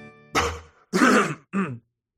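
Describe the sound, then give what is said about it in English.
Throat clearing in three loud, gravelly bursts, the middle one longest and the last short, with brief gaps of silence between them. “excuse me, had something in my throat.”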